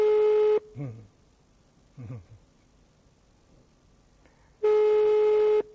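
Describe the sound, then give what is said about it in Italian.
Telephone line tones play while a number is redialed: a steady, loud electronic tone sounds at the start and again near the end, with talk in between. “ho rifatto il numero di quello che sarebbe sceso giù, no? Vediamo un po' se”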